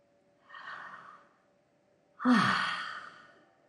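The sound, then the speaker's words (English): A deep breath taken alone: a soft, airy inhale, a short pause, then a louder, longer sighing exhale that slowly fades out. “And take a deep breath. 之后深呼吸。”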